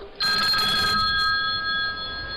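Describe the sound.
A telephone rings as a call is placed: one bright, buzzing ring burst lasts about a second, then steady high tones carry on to the end over low background noise.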